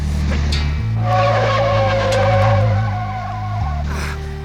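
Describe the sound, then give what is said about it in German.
Volvo car skidding under emergency braking, a loud sustained tire squeal with wavering pitched tones lasting a few seconds over a continuous low engine drone. “Der Volvo gerät ins Schleudern. Ah. Er macht eine Vollbremsung.”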